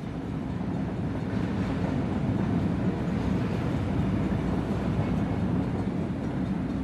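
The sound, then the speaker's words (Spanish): Gentle rattling of a moving train, heard as a continuous, even low rumble with a soft rattle on top, unbroken and fairly quiet throughout, with no voices. “Disfrutas de la comodidad del asiento. Del suave y relajante traqueteo del tren.”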